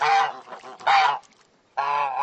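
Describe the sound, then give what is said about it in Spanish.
A goose honks loudly in a few nasal, harmonic blasts separated by short pauses, with a faint trailing call between them and a clear gap before the last honk. “Y el ganso, ga, ga, ga.”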